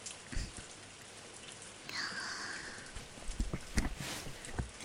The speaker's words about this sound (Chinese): 这雨真的是太大了